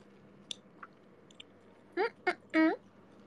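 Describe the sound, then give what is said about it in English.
A person chews food while eating, making a few faint wet clicks and mouth noises, followed by short, louder voiced sounds near the end. “You can hear me eat. You can hear the eating sound. Doesn't it sound gross?”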